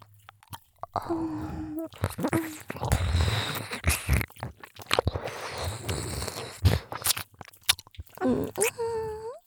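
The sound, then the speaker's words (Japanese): Ear licking in close-up ASMR: many wet, smacking licks and slurping mouth sounds in an irregular rhythm, with a few brief soft vocal sounds. “形も綺麗でペロペロしたくなっちゃいます。”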